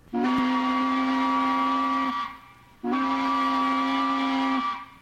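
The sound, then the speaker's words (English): A tugboat sounds its sharp whistle in two long blasts of about two seconds each, separated by a short gap. Each blast holds a steady, piercing tone rich in overtones and is heard alone. “the song of a bird, even the sharp whistle of a tugboat,”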